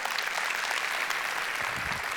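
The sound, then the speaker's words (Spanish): A church audience applauds God during a sermon, producing a dense, unbroken wash of clapping from many people at an even level. “un aplauso a Dios, un aplauso al Señor”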